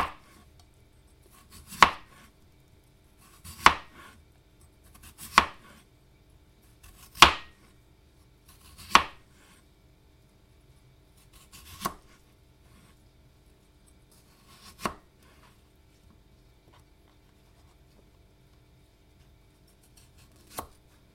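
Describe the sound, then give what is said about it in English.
Knife slicing potatoes into medium slices: a series of crisp, sharp cuts at slow, fairly even intervals, strongest early on and growing fainter and more widely spaced toward the end, with no talk. “I'm just going to cut these myself. So you cut them into not too thick but not too thin slices, sort of medium slices.”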